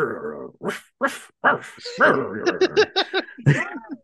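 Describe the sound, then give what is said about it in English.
A man's voice imitates a dog, giving many short barks and yips in quick bursts, the later ones tighter and more rapid, with brief pauses between them. “he's making the noises. Woof, woof, grr.”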